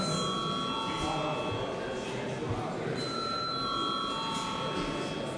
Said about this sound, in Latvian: Lūdzu, zvanu.